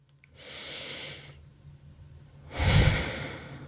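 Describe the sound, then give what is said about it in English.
A single deep breath: a long, airy inhale, a quiet pause, then a louder, rougher exhale with a breathy rush. “So take a moment now, pause, take a deep breath with me.”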